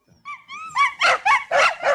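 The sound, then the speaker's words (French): Two dogs barking in a bedroom: a couple of high, thin whines give way to about five sharp, loud barks in a quick, even run. “Tiens, vous avez un chien ? J'en ai deux. Ils sont dans la chambre. Les voisins ne sont pas contents, ils font trop de bruit.”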